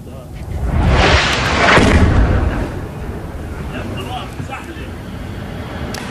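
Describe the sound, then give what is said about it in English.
Explosion of an Israeli missile striking Gaza City: a loud, broad blast swells over the first two seconds, then settles into a lingering, noisy rumble that slowly fades. “So that is video showing the moment an Israeli missile hit Gaza City.”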